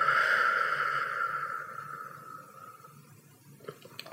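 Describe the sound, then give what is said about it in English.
A slow, deep breath is part of a nose-in, mouth-out belly-breathing exercise. A soft, airy rush of breath is heard alone, starting strong and gradually fading away over about three seconds. “taking a breath in through the nose, down into the tummy, and breathe out through the mouth.”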